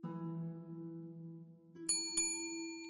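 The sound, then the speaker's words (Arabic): A hand bell rung to summon a servant gives two bright, ringing strikes in close succession, each leaving a shimmering high decay over a steady low tonal background. “بعد مغادرة الطبيب قرع بوارو الجرس طالبا خادمه جورج”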